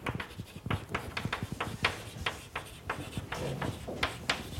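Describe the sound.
Handwriting as formulas are written out during a maths explanation: many quick, scratchy strokes in an uneven rhythm, fairly quiet and with no talk over them.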